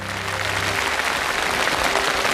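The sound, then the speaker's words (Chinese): Steady, full applause from an audience at a live product demonstration. Dense clapping holds at an even level throughout, with faint low tones at the start. “掌声鼓励一下，很快啊。”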